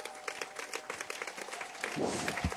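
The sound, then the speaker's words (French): An audience at a church service claps to acclaim the Lord: faint, rhythmic clapping in quick repeated beats that grows slightly fuller toward the end. “Est-ce qu'on peut acclamer très fort le Seigneur?”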